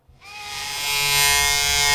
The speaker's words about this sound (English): You caught me shaving. I was a dedicated blade shaver until my wife bought me a Remington electric razor.